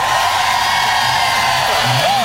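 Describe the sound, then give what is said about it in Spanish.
Crowd at a religious gathering in a stadium shouting in jubilation: a steady, dense roar of many voices that holds for the whole moment, with a whooping cry rising and falling near the end. “Eso, ese grito de júbilo.”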